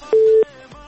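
A single telephone tone sounds as a call is connected: a steady mid-pitched beep lasting about a third of a second, followed by quieter line noise.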